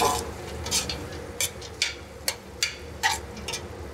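A spoon stirring onions in olive oil in a pot, heard as several light, irregular taps and clicks against the pot over a steady background hiss.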